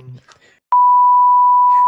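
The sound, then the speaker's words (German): After a brief moment of talk, a single loud electronic beep sounds: one pure, unwavering tone that starts abruptly and holds steady to the end. “piep”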